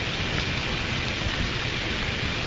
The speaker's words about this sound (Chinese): 眼镜蛇有两个特别，第一个是嘶嘶，是不是？这是眼镜蛇